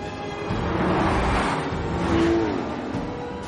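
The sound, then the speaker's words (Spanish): Audi car swerving past another car during a chase after a crash: a broad engine roar that swells through the middle of the few seconds and eases off, loud and without speech. “El coche principal es un Audi que esquiva otro.”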